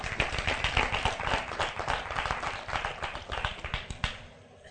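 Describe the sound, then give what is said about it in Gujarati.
An audience at a religious storytelling gathering clapping for the musicians, including the tabla player: many quick, uneven claps, fairly loud, that thin out and fade in the last moments. “માટે સંગીતવાળાને આ પડખાવાળા તાળીથી વધાવે।”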